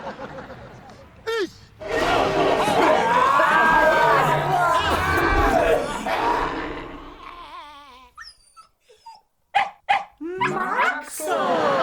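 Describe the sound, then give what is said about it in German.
A dog barks amid loud, dense shouting and crowd-like voices, with a few short sharp bursts standing out near the end. “Was ist denn das für ein Hund?”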